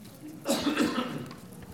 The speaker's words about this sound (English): Got stuff in my throat.